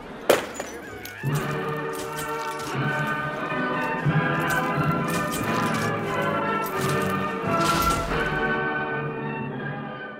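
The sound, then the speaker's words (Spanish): A glass bottle is smashed to inaugurate telescopes in a comedy sketch, giving one sharp crash at the very start, followed by a long stretch of sustained tonal sound. “Rompe la botella, Felipito, que a ver si te echas novia de una vez.”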